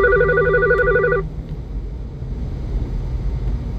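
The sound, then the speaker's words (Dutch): A telephone rings with an incoming call, one warbling electronic trill lasting about a second before it cuts off, leaving only a low background rumble. “Mijn man belt mij.”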